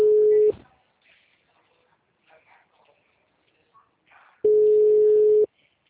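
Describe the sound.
Ringback tone of an outgoing telephone call: a steady, mid-pitched hum that lasts about half a second at the start and returns a few seconds later for about a second. Faint, murmured voices fill the quiet gap between the rings.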